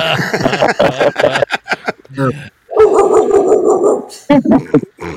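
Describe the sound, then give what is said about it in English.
A dog near the front door barks after being startled by a guest arriving. Several loud barks mix with overlapping voices of people talking. “That's my dog.”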